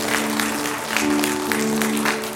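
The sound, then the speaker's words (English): Congregation applauding in praise at a church service, a dense, steady wash of many hands clapping at even loudness throughout, with a low hum beneath. “Let's give God a hand clap of praise for the man of God who brought the word.”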